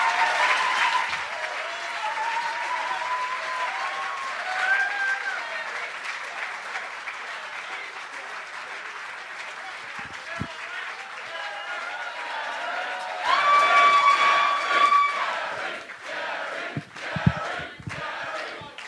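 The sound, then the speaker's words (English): A live stage-show audience applauds and cheers in a sustained wash of clapping and shouts that runs the whole stretch, swelling louder near the end with some voices mixed in. “Put your hands together for The Dollop Live!”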